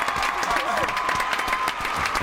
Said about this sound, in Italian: l'ultima puntata di Voice Anatomy, applauso, così applauso, applauso, senza applauso, applauso. Applauso.